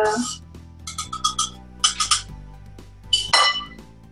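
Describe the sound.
Metallic clinks of a lid being set on a cooking pot while food cooks. Short, bright clinks come in a few clusters over a low, steady hum.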